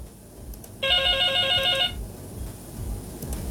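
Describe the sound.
A telephone rings for an incoming call to a radio show: one loud burst of a warbling electronic ring lasting just over a second, then stopping, over a steady hissy background.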